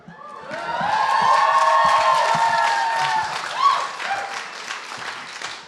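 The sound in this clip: A crowd applauds and cheers to welcome a speaker. The clapping swells in the first second and is mixed with whoops and shouting voices, then slowly eases off toward the end.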